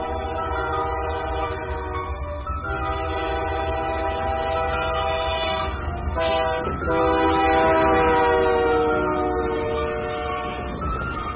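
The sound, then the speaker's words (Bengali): A through train passes close by with a loud, steady roar. Sustained horn-like tones sound throughout, and the noise swells louder in the second half of the pass. “কান ঘেঁষে একটা through train পেরিয়ে গেল জান্তব আওয়াজ তুলে”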